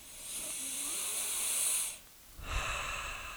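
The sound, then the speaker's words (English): A long, hissing deep breath drawn in, then after a short silent pause a second loud, breathy sniff. “I think it's time we all took a deep breath and got a big whiff of this political system.”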